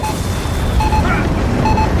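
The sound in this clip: A bomb explosion in the video game Gears of War 4, a loud, sustained low rumble and roar with no sharp onset, layered with tonal music-like sounds throughout.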